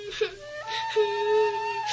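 A young girl cries with a wavering, whimpering wail that grows more sorrowful, its pitch shifting and rising partway through in one continuous two-second sob.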